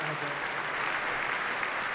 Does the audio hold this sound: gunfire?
no